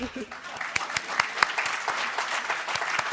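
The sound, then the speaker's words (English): Audience applause, a dense, steady wash of clapping with several sharper individual claps standing out, fairly loud and sustained throughout. “I don't know if people usually get applause for getting married, but still, a wonderful achievement in many ways.”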